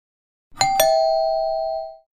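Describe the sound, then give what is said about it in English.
A home doorbell rings with two quick chimes, the second tone ringing on clearly and fading out over about a second, with nothing else heard. “You don't have to ring the bell. This is your home.”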